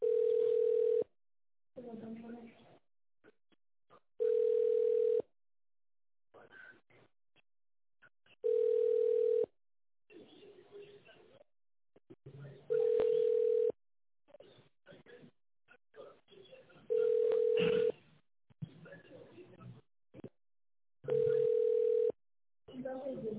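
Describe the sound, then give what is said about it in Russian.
Ringback tone from a telephone call to an energy company's line, heard while waiting on hold for an operator: six steady single-pitch beeps, each about a second long and repeating roughly every four seconds, with faint voices and line noise between them. “Пожалуйста, ожидайте ответа оператора.”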